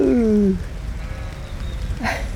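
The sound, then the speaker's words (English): A ewe with her lambs bleats in a field: one loud, wavering bleat that falls in pitch and stops after half a second, followed by quieter outdoor ambience and a faint, brief call near the end. “Oh, look. Oh, that's one of my ewes. With her lambs.”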